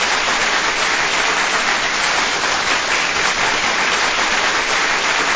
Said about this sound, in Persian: بده به افتخارش دست بزنم، دست بزنم.